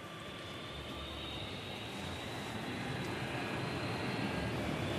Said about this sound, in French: Ça y est, on décolle. Enfin, j'espère.